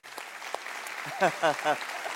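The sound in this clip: A church audience at Ada Bible Church applauding to welcome a pastor, steady clapping throughout while a voice briefly speaks over it near the end.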